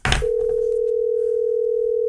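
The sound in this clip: Telephone tone on an outgoing call: a steady, mid-pitched electronic tone that holds unbroken for about two seconds after a brief burst of noise at the start.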